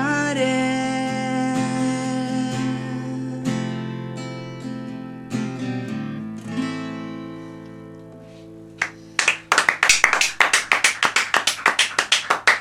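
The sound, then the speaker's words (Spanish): Applause in a radio studio: many sharp, overlapping claps break out loudly in the last few seconds, after a long, sustained tonal passage fades away. “Un aplauso de todos lados de la pecera.”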